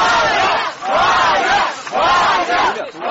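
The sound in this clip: Loud crowd shouting and cheering from activists welcoming journalist Ivan Golunov's release outside the Moscow police investigative headquarters. The voices rise in a few strong repeated surges with brief dips between them.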